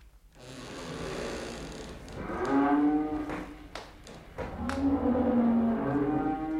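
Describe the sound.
Cattle mooing inside a stable: two long, loud, low moos with a steady harmonic tone, the second one drawn out, over a faint background hum.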